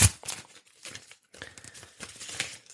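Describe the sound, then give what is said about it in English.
An envelope being opened: papery crinkles and tearing rustles in several quick bursts, with a sharp rip at the start and short pauses between the tears. “Let me just open up this envelope.”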